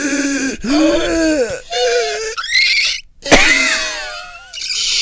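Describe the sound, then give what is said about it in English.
Squeaky, high-pitched stridor breathing from a partial upper airway blockage: a series of strained, wheezing breaths with harsh, whining tones that slide in pitch, separated by brief gaps. No speech. “We call that stridor breathing. That means a partial blockage where there's something there causing that major kind of squeaky noise.”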